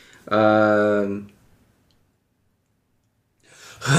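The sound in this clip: A loud, voiced gasp for air after holding the breath for nine minutes and forty-five seconds, a strained tonal intake that cuts off into silence before a second, breathy inhale begins.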